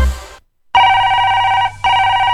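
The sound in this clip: A telephone rings with a loud electronic tone at a steady pitch, sounding in two bursts separated by a brief gap, after a short different sound cuts to silence.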